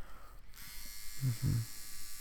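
An electric shaver trimming a beard gives a steady, thin buzz that swells into a louder, lower buzzing toward the end.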